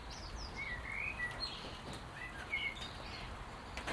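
Birds chirp faintly in a garden during steady, straight-down rain. A few scattered high tweets rise above the soft, constant hiss of the rainfall.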